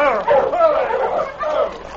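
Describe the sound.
A sled dog team yips, whimpers and bow-wows in falling snow and brisk wind, overlapping wavering cries that carry on loudly and without a break.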